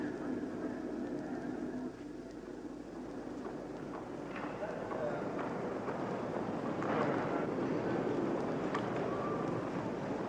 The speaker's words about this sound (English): That's the plane. Yes. Here they are. They're walking across the tarmac.